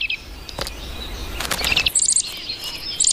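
High, thin chirps of nestling birds in a tree hole, heard as short scattered bursts over a steady background hiss, with brighter rapid calls toward the end.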